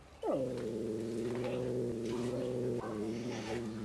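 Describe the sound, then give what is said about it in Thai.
A cat's drawn-out, threatening yowl as a newcomer meets resident cats guarding their territory. The tone drops sharply at the start, then holds loud and steady for over three seconds, with a fresh surge near the end. “ครับก็มีการขู่กันนะครับทั้งตัวที่อยู่เก่าอยู่แล้วเนี่ยครับก็จะมีการแสดงความเป็นเจ้าของพื้นที่”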